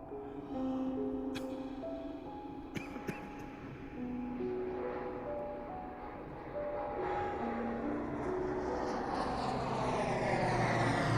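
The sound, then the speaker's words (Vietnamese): An airplane lands at an airport with a steady, loud engine roar whose tones shift in stepped pitches and swell louder toward the end. “Máy bay vừa hạ cánh xuống sân bay”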